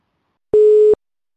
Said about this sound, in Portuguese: Deixa eu ligar aqui para ele que a gente já começa.